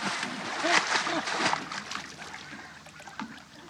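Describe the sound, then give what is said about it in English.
Splashing water from someone learning to swim, kicking feet and working arms, irregular churning splashes that fade gradually, with voices talking over them. “Keep your arms going. Come on. Come on. Feet and arms, both. Keep them going. I'm doing it. I'm swimming.”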